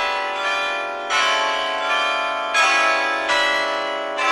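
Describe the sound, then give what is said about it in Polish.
A large Orthodox cathedral bell in Belgrade tolls the hour, its deep, rich strikes landing a few times in slow succession, each swelling over a long, shimmering hum of overtones that carries through between blows. No voices are heard. “Ten stracony i zyskany czas odmierza bijący co godzina dzwon w belgradzkim soborze Świętej Sawy, jednej z największych cerkwi na świecie.”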